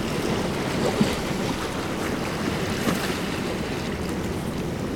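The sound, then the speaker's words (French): The steady, hissing wash of surf from a rising tide with a very high tidal coefficient rolls on without a break, broad and even in loudness throughout. “c'est celui de la marée montante.”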